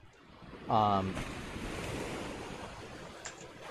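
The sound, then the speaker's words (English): Rough ocean water churns in a continuous wash of surf noise mixed with wind. A short voiced, tonal sound cuts in briefly near the start, then the steady roar of the waves carries on alone. “You notice that the water starts to get a bit rough. And you do see storms on the horizon.”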